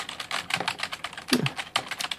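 Rapid typing on a computer keyboard while an email is written, with many quick, crisp keystrokes in an uneven, continuous patter and a few louder taps standing out.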